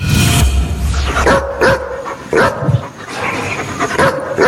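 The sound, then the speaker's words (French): A dog barks in a run of many short, sharp barks, loud and irregularly spaced, with an opening burst followed by scattered single and double barks. “j'ai un petit doute, mais je dirais quand même un aboiement de chien.”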